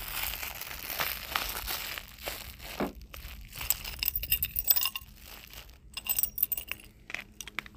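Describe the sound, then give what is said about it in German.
A room key jingles and clinks amid crinkling, rustling handling noise, coming in many irregular bursts of varying loudness. “was noch so klimpert ist, äh, klimpert, ist mein Zimmerschlüssel.”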